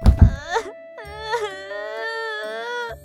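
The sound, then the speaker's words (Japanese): Loud, wavering wail of someone crying during a quarrel, beginning with a short rough sob and then stretching into long, high, sustained moaning cries with brief breaks. “ちょっと泣かないでよ。”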